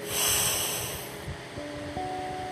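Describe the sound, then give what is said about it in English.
A deep breath drawn in through the nose makes a long, airy rush that swells early and then slowly tapers. Faint sustained tones sit softly underneath. “Close your eyes. Breathe deeply in through your nose.”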